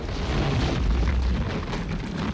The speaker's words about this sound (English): Suddenly, the earth beneath them bulges and cracks.